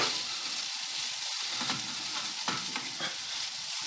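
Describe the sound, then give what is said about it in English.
An omelette fries in a pan and is flipped, giving a loud, continuous sizzle and crackle with a few brief sharper ticks and scrapes. “This is taking a while for an omelette. Now for the flip. Flip it over.”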